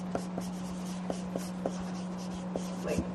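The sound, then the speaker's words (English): A pen scratches out symbols by hand in many short, quick strokes, some sharper than others. The writing is faint, and a steady low hum sits beneath it. “I'm writing what the symbols are.”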